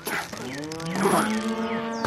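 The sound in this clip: A heifer lows as she is pushed into a stall, one loud, sustained moo with a rich harmonic tone that fills the whole clip.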